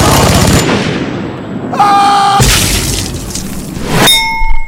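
Rapid gunfire from a paintball battle scene in a light beer commercial: a fast rattle of shots, then loud, dense bursts with a brief ringing tone between them, loud throughout.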